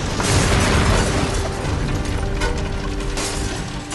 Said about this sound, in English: From outside, the building explodes. Debris flies out among the billowing smoke.